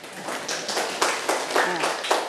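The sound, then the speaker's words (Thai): Classmates clapping their hands together during a classroom lesson: a run of sharp, fairly loud claps in a quick, even rhythm, blending into a bright patter. “ปรบมือกับเพื่อนค่ะ”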